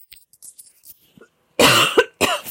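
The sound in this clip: Two harsh, loud coughs burst out from a tickling throat, one after the other. A few faint clicks and breaths come before them.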